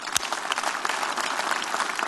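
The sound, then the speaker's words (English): A church audience applauding to welcome a pastor at a Sunday service: dense, steady clapping from many hands that fills the whole moment at an even level, with no speech over it. “So let's all put our hands together as we welcome him today.”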